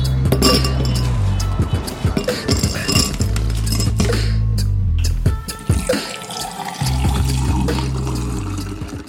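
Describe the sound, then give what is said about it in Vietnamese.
A glass of iced tea clinking: several bright clinks of glass and ice, with running water and the clatter of dishes around them. “Cô ơi cháu xin cốc trà đá với ạ.”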